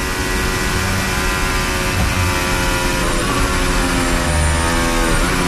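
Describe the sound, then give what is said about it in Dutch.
Formula 1 race car engine heard from an onboard position, a loud, continuous high-revving drone with dense harmonics that holds steady throughout. “Onboordgeluid komt bij Verstappen vandaan.”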